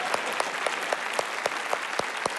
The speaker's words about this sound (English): Yeah, that'd be really encouraging if you'd clap for that. That'd really be helpful.